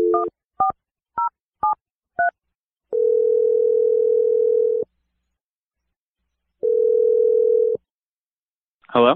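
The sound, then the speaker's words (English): Five quick touch-tone beeps as a telephone number is dialed, followed by two long, steady ringing tones separated by a pause, with a brief voice at the very end. “I'm going to dial Michael's number right now.”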